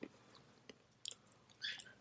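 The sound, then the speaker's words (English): Peanuts being chewed close to the microphone, heard as a few short, faint, crunchy bursts with quiet gaps between them and no talk. “do not come close to the microphone with eating peanuts.”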